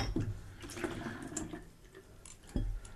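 Water splashes and runs as a glass is rinsed between double IPA tastings, a continuous noisy wash with sharper splashes near the start and again near the end.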